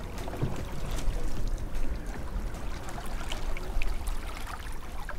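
Water washing around a boat moving on a river near Bad Säckingen, a continuous rough splashing and gurgling over a low rumble, with no talk.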